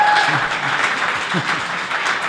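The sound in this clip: Audience applause at a conference after a speaker: a steady wash of clapping, moderately loud, with a voice briefly heard over it.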